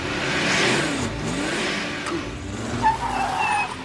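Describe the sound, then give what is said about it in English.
Aston Martin engine revving as the car jerks along a road, the motor surging and easing in uneven bursts, with a brief sharper peak near the end. “An Aston Martin jerks along a road.”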